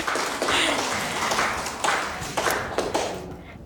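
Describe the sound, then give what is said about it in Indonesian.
Applause rises from the audience at a quiz contest after a wrong answer is announced. The clapping comes in a few swelling surges that fade between them, with sharp individual claps standing out. “Oke, kasih tepuk tangan.”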